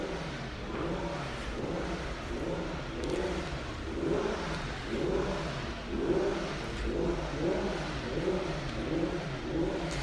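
Vintage racing car engine revving, played as background sound in a museum exhibit on French motor racing history; a faint, steady mid-pitched drone with rhythmic swells in revs and no talk.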